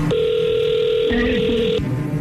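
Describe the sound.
A telephone call is dialed: sustained electronic phone tones that hold steady, then shift twice to different pitches before stopping.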